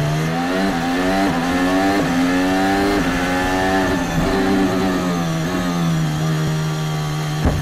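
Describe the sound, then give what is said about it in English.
A Formula 1 car's engine, recorded onboard, screams loud and steady. Its pitch climbs and drops again and again through repeated gear changes, with no voices over it. “also, Gasly's view of Zhou Guan Yu's crash.”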